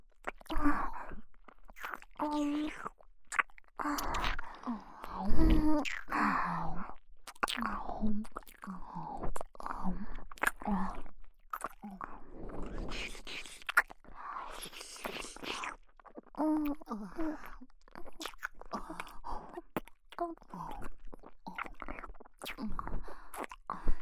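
Wet, close mouth chewing and smacking sounds from a person pretending to nibble on a soft earlobe, mixed with breathy whispers; many irregular smacks run on without pause.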